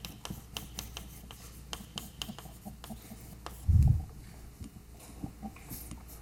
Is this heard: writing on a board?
yes